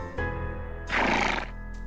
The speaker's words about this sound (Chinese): 马回答着。